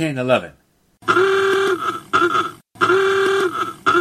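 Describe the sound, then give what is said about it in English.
An old motor car horn from around 1911 honks loudly in alternating long and short blasts, right after a brief spoken voice. “What a fancy motor car he's driving, all decked out in those leather driving goggles.”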